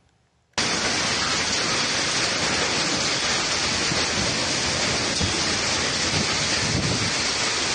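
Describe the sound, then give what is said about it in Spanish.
Hurricane Polo, a category 3 storm over Baja California Sur, with strong wind and torrential rain: after a brief quiet moment, a loud, unbroken roar of wind and pouring rain sets in and stays constant throughout. “En México, el huracán Polo pasó por Baja California Sur como un poderoso ciclón de categoría 3, desatando vientos de hasta 150 millas por hora, lluvias torrenciales y oleaje de hasta 33 pies.”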